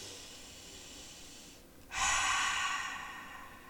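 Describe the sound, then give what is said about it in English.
A person takes a deep, slow breath during a calming exercise: a soft, airy stretch of breath gives way to a louder, rushing hiss of air that fades gradually, with no talking. “Take a moment. Take a deep, deep breath right here.”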